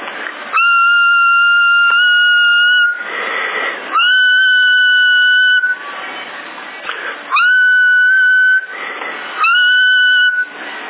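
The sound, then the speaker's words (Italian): A person whistles over a CB radio channel: four steady, high, sustained whistled notes, each followed by a burst of hissy radio static. “Fischiando così.”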